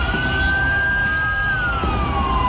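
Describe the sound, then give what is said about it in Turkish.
An ambulance siren wailing while stuck in heavy traffic, a single tone that climbs slowly, holds, then glides back down over a steady background rumble of vehicles. “Bu ambulans zamanla yarışıyordu ama trafiğe takıldı.”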